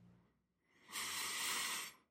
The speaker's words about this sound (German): Und dabei atmen wir einfach weiter. Atmen langsam ein